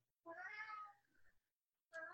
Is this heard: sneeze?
no